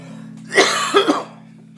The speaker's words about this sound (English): Sorry, I coughed.